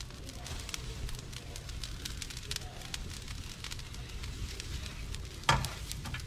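Crackling of a burning straw fire: dense, irregular snaps and hissing run steadily throughout, with one sharper, louder pop near the end.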